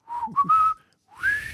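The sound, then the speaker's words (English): A person whistles a short tune: a few breathy sustained notes in quick succession, then after a brief pause a longer note that rises in pitch, fairly loud and with no talking. “I'm not good at whistling.”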